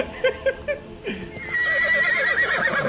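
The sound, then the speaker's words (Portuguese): A horse in a video game whinnies in distress as it sinks. A few short snorting bursts lead into a sustained, high, wavering neigh that stays loud to the end. “seu cavalo tá desesperado, afundando.”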